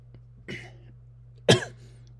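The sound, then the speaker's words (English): A person coughs twice over a steady low hum. The first cough is softer, and the second, about a second later, is sharper and louder. “Sorry about the cough.”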